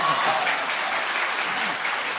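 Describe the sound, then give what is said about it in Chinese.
Warm audience applause at a Chinese comedy show, dense and steady clapping for about two seconds, slightly louder at the start and easing a little toward the end. “那观众这掌声多热情啊！”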